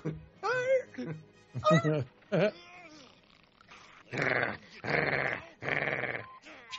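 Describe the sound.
Animated dog growling: three rough, harsh growl bursts in close succession, preceded by higher voiced cries and whines.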